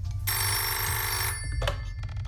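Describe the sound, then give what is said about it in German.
A telephone rings early in the morning at a breakfast table: one long, bright electronic ring followed by a brief second burst, loud over a low background hum, with no voices. “Wer ruft denn so früh an?”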